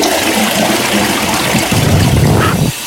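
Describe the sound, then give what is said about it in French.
A toilet flushing: a steady rush of water runs throughout, swelling into a deeper, fuller gush through the later part before cutting back abruptly near the end. “allez, je tire la chasse, on y va.”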